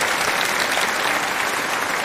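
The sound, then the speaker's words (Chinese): Loud, dense applause from an audience thanking a lecturer after a talk, an unbroken roar of clapping at an even level throughout the two seconds. “所以今天听完这个开讲确实是让人震撼，再次把掌声送给您。”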